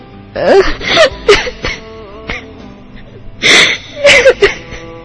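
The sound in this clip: A person cries in broken, sobbing bursts with gasping breaths and wavering wails. Two loud clusters are separated by a quieter stretch of sniffling.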